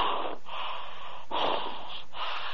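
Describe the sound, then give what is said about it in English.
Heavy, rapid breathing after a workout: loud, steady, breathy huffs in about three close phases with brief gaps, and no talking. “I'm sorry for breathing so hard, I've been working out”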